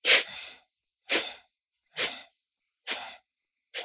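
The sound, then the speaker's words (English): Yoga breathing exercise with five short, forceful bursts of breath through the nostrils, evenly spaced about a second apart. Each is a sharp hissing puff that trails off quickly, with silence between them. “So long, long breath through the nostrils. And then little steps down as though you're climbing down.”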